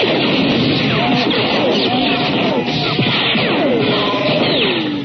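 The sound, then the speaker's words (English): Gunfire erupts in a dense, loud, continuous barrage, with rapid overlapping shots and sweeping, pitch-falling zaps filling the whole clip. “All right, guys, open fire.”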